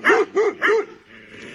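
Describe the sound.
Dogs barking: three sharp, loud barks in quick succession, followed by a quieter stretch of low rumbling sound, then the start of another bark at the very end.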